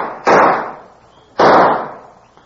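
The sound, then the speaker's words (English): Two sharp pistol shots ring out at a police firing range about a second apart. Each is a loud crack followed by a gradually fading tail. “The following week at the police pistol range, FBI Special Agent Jim Taylor is finishing his monthly firearms test when Detective Dick Perry approaches.”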